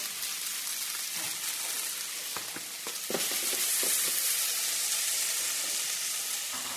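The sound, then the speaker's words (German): Pre-cooked spelt sizzling in heated butter in a tall-sided stainless steel frying pan: a steady, hissing fry with a few soft crackles, growing slightly louder partway through. “Ja, ein bisschen Butter oder Margarine in den Topf erhitzen. Dann gibt man den bereits vorgekochten Dinkel dazu.”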